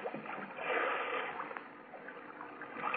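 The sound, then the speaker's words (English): Paddle strokes splash and slosh as a boat is paddled through water. The sound is muffled and narrow in tone, a continuous watery churning with slight surges in loudness. “All right, now lean on that paddle. That's right. We're heading for Yagachi.”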